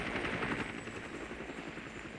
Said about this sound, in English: A helicopter circles in the sky, then comes down to land in the barracks grounds.